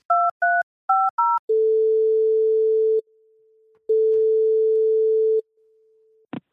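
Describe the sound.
Four short two-tone dialing beeps while placing a call, followed by two long, steady, low ringback tones separated by a pause, ending with a brief click.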